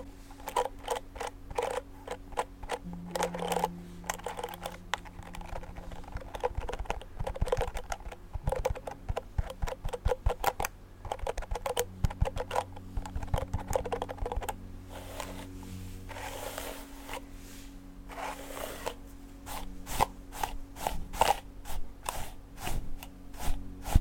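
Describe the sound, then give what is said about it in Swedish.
A hairbrush works through loose hair in many rapid, scratchy bristle strokes. They crackle and tick in a busy, irregular rhythm, and no one speaks. “Då kan du börja med att släppa ut ditt hår. Så bara borstar jag igenom det.”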